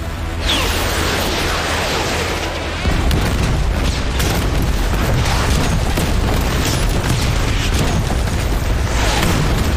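Explosions of new-type artillery ammunition in a war drama roll together into a continuous heavy rumble of overlapping blasts, growing louder after the first few seconds and staying dense to the end.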